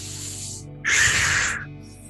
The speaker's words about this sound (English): Really breathe beyond your normal breath. Louder and stronger. Deeper and fuller. Come on, do the breath.